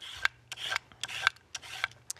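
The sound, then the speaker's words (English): A carrot is peeled with a peeler in a rapid series of short, dry rasping strokes, each a brief scrape with small pauses between. “so I'm going to peel this carrot”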